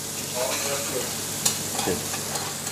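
Asparagus pieces, cut diagonally into small diamonds, pan-roast in a gentle sizzle. The frying stays soft and steady, with a few brief scraping stirs.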